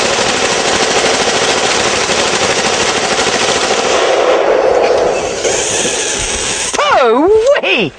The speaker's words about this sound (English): This particular gun fires about 800 rounds a minute. 800 rounds per minute.